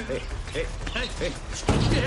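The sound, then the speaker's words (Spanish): A heavy door is pushed open by a burly man in a tense thriller scene: a sudden, loud thudding surge near the end, after a stretch of people talking. “El corpulento hombre empuja la puerta.”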